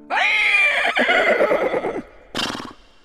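A horse gives a long, loud whinny with a shaking, wavering cry that trails off, then after a brief pause a shorter, breathier call follows.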